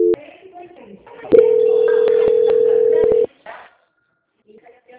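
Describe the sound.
A steady telephone tone plays during a call transfer, one unbroken mid-pitched hum lasting about two seconds with faint clicks over it. Brief muffled sounds come just before and after it.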